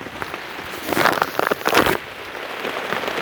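Rain falls on a house whose roof has underlayment down but no shingles yet, with water leaking inside: a dense, steady hiss with louder bursts of pattering in the middle before it settles back to an even wash. No talk.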